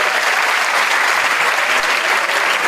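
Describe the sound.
Steady applause from an audience cheering a woman who solved a puzzle: dense, continuous clapping that stays loud and even throughout with no breaks.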